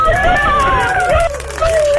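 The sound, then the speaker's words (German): Grandchildren chatter in the background during a phone call, lively high-pitched young voices running on continuously for a couple of seconds with a brief dip near the middle. “Oh, wer ist denn da im Hintergrund? Ja, meine Enkel eben.”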